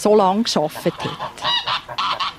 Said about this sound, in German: Vor dem Hof hört man die Gänse.